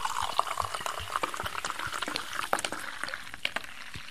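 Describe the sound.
A drink foams as it is poured, giving a continuous fizzing crackle of many tiny pops and splashes that runs at an even level throughout.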